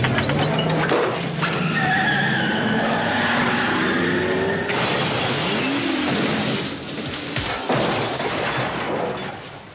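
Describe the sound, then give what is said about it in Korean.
Red Ferrari rolling after its brake releases and crashing through a glass window into a house's backyard, with shattering glass and crashing impacts over several seconds in a dense, noisy mix. “순간 브레이크가 풀리면서 유리창을 깨고 집 뒤뜰로 떨어져 버린 빨간 페라리.”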